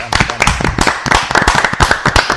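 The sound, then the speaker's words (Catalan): Dense applause at a castellers gathering, welcoming women into the human-tower tradition. Many loud, overlapping claps run without a break through the whole stretch and form a thick, crackling wash of hand claps. “Per tant, un aplaudiment per l'entrada de les dones al món casteller.”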